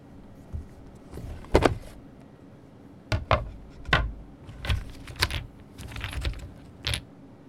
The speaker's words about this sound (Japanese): 取り出したのは穴の開いたボードと16個のいろんな形のピースね。